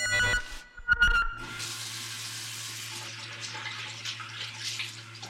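Running tap water as a woman washes her face in a bathroom, in a drama scene. A few knocks come first, then an even, hissing flow of water holds steady to the end over a low hum.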